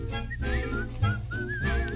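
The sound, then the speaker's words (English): Cheerful whistling of a tune, bright, clear notes gliding between pitches, ending on a wavering, trilled note. “try to be like a cheerful chickadee and whistle while you work.”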